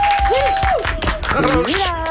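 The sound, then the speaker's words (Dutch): A studio audience gives warm applause to welcome a guest on a Dutch TV show, with steady clapping running throughout. “Dames en heren, een warm applaus voor Roos Redijk.”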